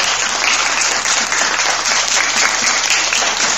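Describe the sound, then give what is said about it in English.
Applause for the quiz master at a school quiz, dense, loud and sustained clapping throughout with no pauses and no speech over it. “Round of applause for the quiz master.”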